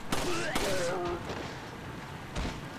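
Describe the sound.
Gunfire in a shooter video game as the player fights two enemies at a bridge: a few sharp, loud shot bursts, two close together early and another near the end.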